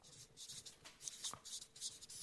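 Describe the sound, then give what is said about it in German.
The word Zuneigung is written by hand, with faint, quick scratching strokes in short irregular bursts and no talk over them. “Also, ich schreibe mal Zuneigung.”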